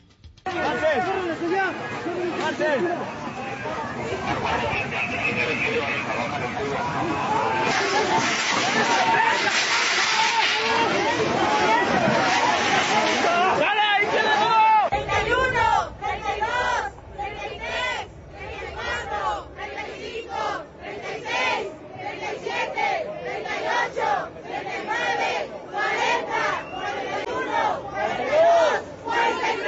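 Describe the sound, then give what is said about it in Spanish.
Protest crowd chanting slogans against violence and disappearances in the country: a dense, loud roar of many voices fills the first half, then breaks into rhythmic, repeated chanted bursts that continue to the end. “Los manifestantes expresaron su inconformidad por la situación de violencia y desapariciones en el país mediante diversas consignas. Vamos a escuchar.”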